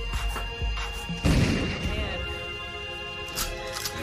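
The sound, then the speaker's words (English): A single gunshot from an Arasaka operative in a video game: one sharp crashing blast that stands out against a steady background and decays quickly. “that guy, uh, the Arasaka operative, takes a shot off at you now.”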